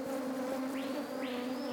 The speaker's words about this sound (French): C'est ça l'avantage de cette espèce d'abeille. Comme elle est très saine, elle n'a pas besoin de traitement. Elle est en pleine forme.